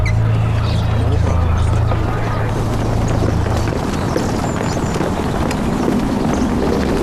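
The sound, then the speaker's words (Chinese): Hooves of a horse-drawn carriage clip-clop steadily through a dense, rumbling wash of background noise, with voices mixed in. “来，这个马车往那边去。”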